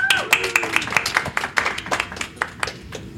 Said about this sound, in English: Come on up, sir. Give this gentleman a hand.